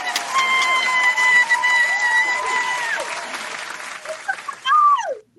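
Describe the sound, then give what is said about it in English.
Studio audience applause greeting a guest as she is welcomed onto a show, a steady wash of clapping that holds for about five seconds, with a bright tonal sound sweeping over it near the end. “Y'all, put your hands together for my very own special guest, Jane Tabachnick!”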